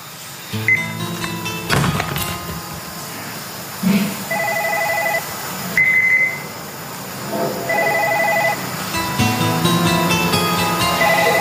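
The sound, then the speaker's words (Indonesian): A telephone rings in a dramatized scene, sounding as several short electronic ring bursts repeated at a steady pace over busy background noise and occasional thumps. “gak usah diangkat telepon itu”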